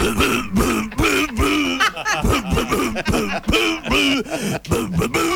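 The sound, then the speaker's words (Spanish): A person coughs out the tune of the happy birthday song, with many rhythmic, loud voiced coughs that follow a melody, some sounding close to laughter. “¿Puede ser una tos? Traigo la torta a Ariel y a Mercedes. El feliz cumpleaños, pero tosido.”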